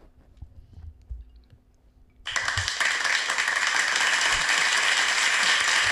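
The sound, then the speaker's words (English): Applause of a standing ovation breaks out suddenly after a quiet stretch, a dense, steady wash of clapping that stays loud through to the end. “I just got a standing ovation. I'm so happy right now.”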